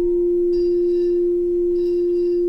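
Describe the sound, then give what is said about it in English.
A struck object rings with two tones in a sustained, steady mid-pitched tone that holds at an even loudness throughout, while fainter, higher overtones fade in and out twice. “if you hear that wah, wah, wah, wah, wah, wah, that is the beat frequency.”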